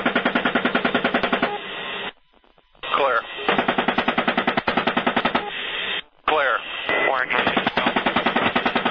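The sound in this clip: Machine gun fire from a 30mm cannon on an Apache helicopter firing at a pickup truck, three long rapid rattling bursts of fast, evenly spaced shots separated by two short pauses.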